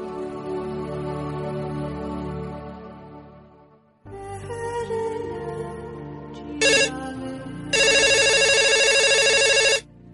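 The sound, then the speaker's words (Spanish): Electronic ringtone signalling an incoming call, heard after a sustained musical passage fades out: a loud melodic run of synthetic tones with bright, high-pitched bursts near the end, and no voices. “Bueno, Violeta, pues tenemos la primera llamada de la noche.”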